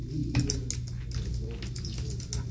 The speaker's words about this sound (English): You want to type that stuff down? So. Oh, sure. Here, are you at the slash? Yeah, go ahead, do it. Type it.